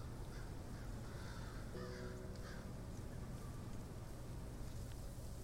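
A crow cawing, a wintering bird perched on the side of a black cabin, giving a brief harsh call that rises out of steady wind-like noise.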